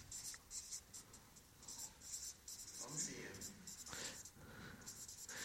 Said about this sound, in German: Ich versuche schön zu schreiben.